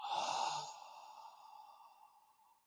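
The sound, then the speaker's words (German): A slow exhale through the open mouth during a calming breathing exercise, drawn out longer than the inhale. One soft, airy breath is strongest at the start and tapers off gradually over about two seconds, with no talk. “durch den geöffneten Mund atmest du aus und zählst dabei bis fünf, sechs oder sieben, also länger als die Einatmung.”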